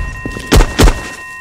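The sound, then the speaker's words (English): A C4 explosive detonates in a video game as two short, heavy booms about a third of a second apart, each with a deep low thump, over a faint steady electronic hum. “Oh, Verzeihung, das war das C4, das ist explodiert.”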